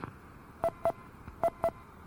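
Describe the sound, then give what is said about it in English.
Touch-tone DTMF beeps sent as an emergency auto-dial over an amateur radio repeater: four short, evenly spaced tones in two pairs, fairly faint over a low, steady background noise. “See you at the Hamfest tomorrow. This is NU6P emergency auto dial.”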